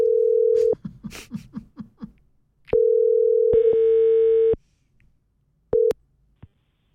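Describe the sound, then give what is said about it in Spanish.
A telephone ringing tone while placing a call: a steady mid-pitched tone sounds in bursts, first a short one, then a longer one after a brief voice, and finally a short closing beep. “Rápidamente movemos estos controles y hacemos la llamada.”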